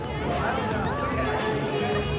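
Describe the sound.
Crowd chatter at a poolside party: many overlapping voices blend into a dense, steady babble with no single speaker standing out.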